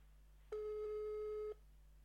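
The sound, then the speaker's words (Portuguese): A single steady telephone line tone from an outgoing call on a mobile phone: one flat, mid-pitched beep lasting about a second, with a faint low hum underneath and silence on either side. “Vamos ver se, se o Duarte atende. Se o Damas atende. Vou fazer o mesmo, né? Vou ligar por todo o lado.”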